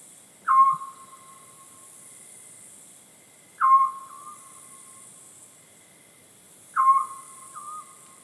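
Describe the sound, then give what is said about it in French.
Scops owl calls from a played recording: three evenly spaced, short whistled hoots, each a clear mid-pitched note standing alone over faint background hiss. “Je, vais, le mettre en route, le petit duc. Je l'aime beaucoup.”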